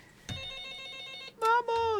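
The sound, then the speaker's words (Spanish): An incoming call rings on a telephone. A long, steady electronic tone sounds for about a second, followed by two shorter, louder tones that dip in pitch. “Ya tenemos llamada.”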